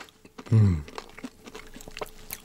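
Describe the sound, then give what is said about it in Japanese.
Crunching of crispy-skinned food as it is bitten and chewed: one loud crunchy bite, then quieter crackling chews that continue steadily. “外カリカリじゃない？このクリスピーさたまんない。”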